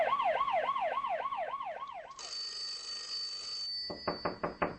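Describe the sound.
Electronic telephone ringtone from an incoming call, starting as a fast warbling trill, then a steady high beep, then a quick run of about five sharp pulses, with no voices.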